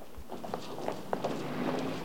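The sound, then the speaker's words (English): Footsteps of a man and a woman walking along a shop-lined street: a few faint, soft steps over a low, steady background with a thin sustained tone. “Dave and the woman go out and walk along the shop-lined street.”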